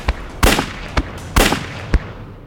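Three gunshots fired at close range ring out as loud, sharp cracks, spaced irregularly among a few smaller pops and bangs, each burst decaying quickly, with no voices.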